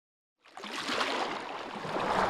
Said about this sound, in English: Small waves lap against the New York shoreline of the lower Niagara River, about 10 miles from Niagara Falls.